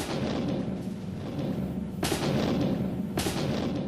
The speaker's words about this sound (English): artillery fired into the enemy